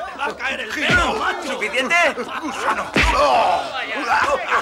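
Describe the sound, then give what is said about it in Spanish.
Two heavy punches land in a fistfight, sharp dull thumps about two seconds apart, cutting through continuous strained voices and grunting. “Wally golpea. Vuelve a golpear.”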